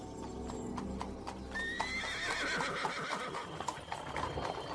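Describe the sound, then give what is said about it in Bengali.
Horse-drawn carriage on a paved road: hooves clip-clop steadily throughout. Partway through, a horse gives a loud high whinny over the hoofbeats. “ঘোড়ার গাড়িতে সেই রাস্তা ধরে যেতে যেতে ডেলব্রুকের”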